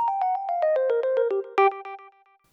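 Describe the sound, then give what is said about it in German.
Short jingle signalling a new topic: a quick descending run of clear, bell-like tones, then a brighter accented chord and a few softer repeats fading out. “denn ich erlaube mir, ein kleines Jingle einspielen zu lassen und dich damit akustisch darüber zu informieren, dass jetzt ein neues Thema kommt. Und das Jingle hört sich wie folgt an.”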